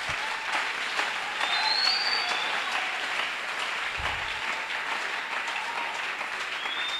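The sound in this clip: Audience applause and acclaim, a steady, fairly soft stream of clapping that holds at an even level for several seconds without pause.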